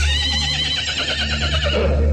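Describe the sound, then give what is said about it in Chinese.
A horse neighs as it pulls off with a rubber-tyred horse cart: one long, loud, quavering whinny that fills the whole clip, its wavering pitch sustained to the end. “车老板一声吆喝，胶皮咕噜大车飞快地跑了起来。”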